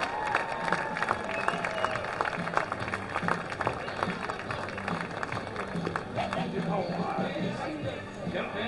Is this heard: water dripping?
no